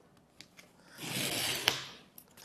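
Smooth, airy scraping and rustling as an Apple product box is unpacked, swelling for about a second and ending with a sharp click, with a few faint ticks and taps before and after. No one speaks.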